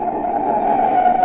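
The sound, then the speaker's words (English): A car braking hard in an emergency stop lets out a steady, loud tyre screech, one sustained mid-pitched squeal that holds nearly level for just over a second. “Recognize it? That's the sound of a car as a desperate motorist has jammed on the brakes in an emergency.”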